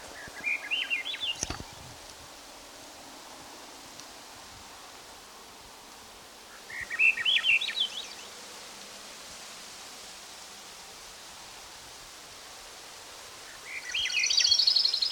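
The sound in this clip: A thrush sings in the background in three short, bright phrases spaced several seconds apart, faint over a steady hiss of outdoor noise, with no talk.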